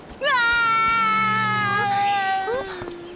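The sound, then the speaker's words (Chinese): Loud, sustained, high-pitched wailing cry that holds its tone for a few seconds, then breaks into shorter, softer sobs at the end. “好了，不要哭了。”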